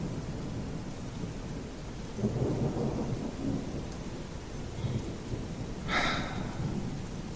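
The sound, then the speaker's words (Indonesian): Heavy rain with thunder on a late night, a dense steady wash of rain with low rumbling swells of thunder rising and fading through it, and a brighter crack near the end. “Di luar masih hujan. Terpaksa aku menunggu hujan reda.”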